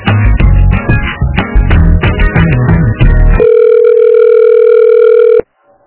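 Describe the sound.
Telephone tones while a call is transferred: about three seconds of busy, chiming electronic notes, then one steady, loud tone that holds for roughly two seconds before cutting off.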